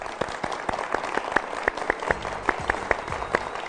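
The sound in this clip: Rhythmic clapping applauds the national volleyball team after its 3–0 win over the United States. Sharp claps fall in a steady, even beat with no voices.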